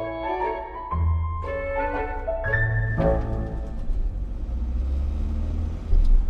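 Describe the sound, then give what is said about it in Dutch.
A bus engine rumbles low and steady while driving, with a changing tonal hum above it and a brief louder surge near the end. “Dit is het geluid van mijn bus”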